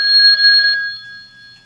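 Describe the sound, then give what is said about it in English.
A ringing telephone, a single bright, trilling bell burst that cuts off and leaves a faint tone lingering as it fades. “Oh, the phone is ringing again.”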